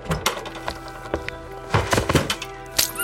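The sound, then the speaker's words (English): A carriage rolling away, heard as irregular wooden thunks and knocks, some loud and sharp, others softer, over a steady tonal drone. “Your face burns as you quickly climb down from the carriage and watch it roll away.”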